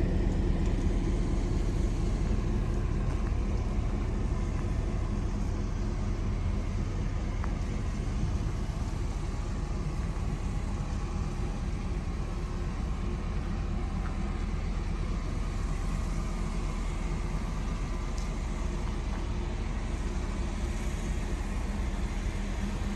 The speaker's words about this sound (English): This is the train. Riding on today.